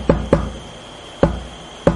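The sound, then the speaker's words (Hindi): Knocking on a surface imitates the tapping of a telegraph key. Four sharp, loud knocks sound alone: a quick pair at the start, then two more spaced out. “ऐसे करके तार भेजते हैं, खटखट खटखट करके।”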